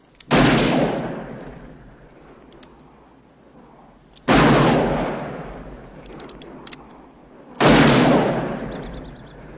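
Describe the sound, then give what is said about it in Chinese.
Gunshots in a western film, shots that miss their targets followed by a double-barreled shotgun: three loud, sharp blasts spaced several seconds apart, each trailing off in a long fading rumble. “不服老不行呐，没有一枪打中，从王者落入青铜，直接掏出了双筒猎枪，准度不行，但凶狠还在啊！”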